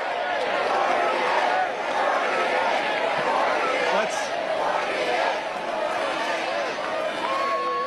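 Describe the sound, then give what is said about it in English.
A Republican midterm convention audience chants "48" for the vice president at the podium. The loud, rhythmic crowd chant repeats steadily throughout. “During Vice President Vance's turn at the podium near the end of the Republican midterm convention, the audience started chanting 48, signaling they want him to be the 48th president.”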